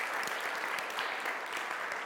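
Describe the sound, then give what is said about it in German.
Applause from an audience at a church gathering, many hands clapping in a continuous, even wash of sound with no clear individual claps. “Wir geben ihm einen Applaus nach Chur.”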